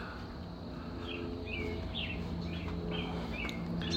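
An American robin chirps near its nest by a house door, perched on a power line: a series of faint, short, high chirps repeating irregularly over a steady background hiss.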